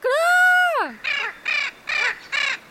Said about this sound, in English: But the most characteristic feature of these macaws is their voice, a short and raspy